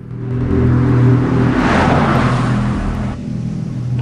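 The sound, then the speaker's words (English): A car drives out of roadworks with a loud, broad engine and tyre roar that swells, holds, then eases slightly, over a steady low hum. “Jim's headlights flare through a misty patch as the car emerges from the roadworks.”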